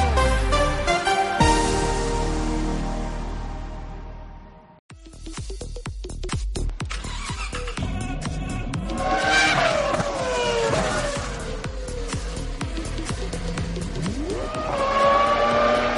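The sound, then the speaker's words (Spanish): A motor sports theme tune is built from racing-car sounds: revving engines, squealing tires and sweeping pitch glides. A brief dip near the middle is followed by dense, roaring passes. “suena la sintonía del mundo del motor.”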